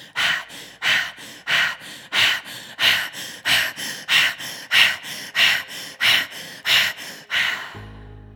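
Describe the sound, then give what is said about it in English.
Rapid, forceful breathing through the nose during a belly-pumping breathing exercise. Many sharp, even breaths come in a steady rhythm of about two per second. The breathing is loud and heard alone, with no talking. “Long, slow, smooth, deep breaths in and out through the nose.”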